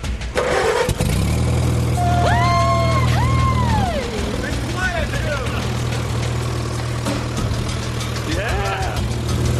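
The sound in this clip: A tractor engine, started with the choke pulled, cranks briefly, catches and settles into a steady low idle that drops back after a few seconds, with voices heard over it.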